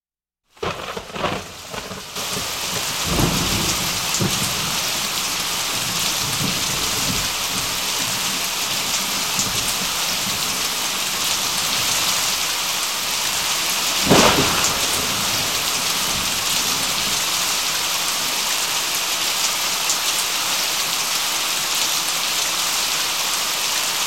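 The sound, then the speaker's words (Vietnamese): Heavy rain pouring down without letup from suddenly gathered dark storm clouds, a dense, steady hiss filling the whole clip, with one brief louder burst near the middle. “mây đen bỗng từ đâu kéo đến, một chốc mưa đổ xuống và kéo dài mãi không ngớt.”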